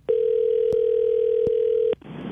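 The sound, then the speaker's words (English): A telephone dial tone on a radio call-in line holds one steady, even pitch for nearly two seconds, marked by faint clicks, then stops. “Okay, it's time to get to the phone lines.”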